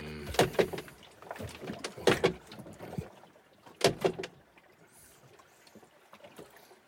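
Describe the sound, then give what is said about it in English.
A door bangs on a boat in rough conditions: three loud bursts of knocking, each made of a couple of quick clattering hits, separated by quieter stretches. “She's kicking up conditions so the fucking door bangs like fucking crazy while I'm doing this.”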